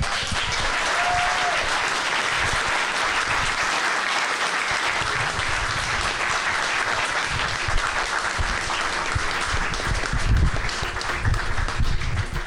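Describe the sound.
Audience applause after a live panel discussion, a dense, steady wash of many hands clapping that holds at an even loudness for the whole stretch.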